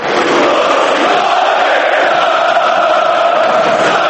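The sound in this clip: Partizan football fans chant in their Belgrade stadium, a loud, dense mass of voices that roars continuously and without pause throughout.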